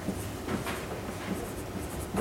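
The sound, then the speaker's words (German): A marker on a whiteboard makes faint, soft scraping strokes while a name is written, as a few short rubbing sounds over a steady hiss. “Ich schreibe hier einen Namen, bewusst einen Namen. Ups, der schreibt nichts. Ist das abwischbar?”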